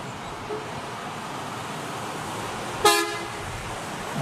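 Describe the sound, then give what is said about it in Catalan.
A Greyhound bus horn gives one short, bright toot that rises briefly above a steady wash of road traffic noise. “És el so d'un autobús de la companyia Greyhound”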